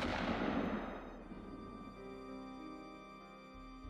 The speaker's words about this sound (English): The shot was heard by several rooms.